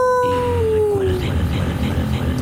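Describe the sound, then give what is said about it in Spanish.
A werewolf howl gives one long tone that slides steadily downward in pitch for about a second, then gives way to a rough, noisy rumble. “¡Ahí viene el hombre lobo!”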